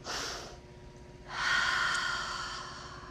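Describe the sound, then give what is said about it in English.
Person demonstrating a calming breath pattern to release anxious energy: a quick sharp intake of breath, then after a pause a long, airy sigh trailing off slowly, soft and without words. “They'll do this thing where they inhale twice and then sigh, and that releases a lot of that anxious energy. So it's like,”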